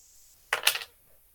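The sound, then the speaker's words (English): Dice rolled in a tabletop game give a quick clatter of sharp, bright clicks lasting about a third of a second, alone without talk. “Come on. Roll a seven. Eight. Or better. Roll an eight or better. Come on, dice.”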